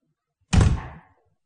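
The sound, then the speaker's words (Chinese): A door is shut with one dull, solid thump. The sound is loud and alone, with a short fading tail. “田村说完关上了门。”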